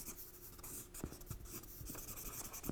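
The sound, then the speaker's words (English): Faint scratching of a pen or pencil drawing a whole note by hand, a series of soft, uneven rubbing strokes with a few light taps. “And so you have, I'm going to draw a whole note.”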